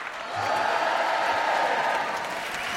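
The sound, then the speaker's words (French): Audience applause and cheering welcoming a comedian on stage at a gala in Montreux, a dense, steady wash of clapping that swells in after a brief quiet start and stays loud to the end. “Préparez-vous maintenant à accueillir notre prochain artiste et faites du bruit où que vous soyez pour Verino”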